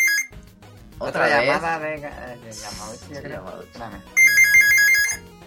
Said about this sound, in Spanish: Otra llamada de Yamauchi.